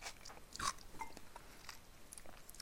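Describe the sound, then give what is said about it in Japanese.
Faint chewing and biting while eating lunch during a weekday work break: many small crunches and mouth sounds in an irregular rhythm, with no talk. “今このね平日金曜日さ金曜日でまあ仕事もしてて今昼休みでこれ食べてんだけど”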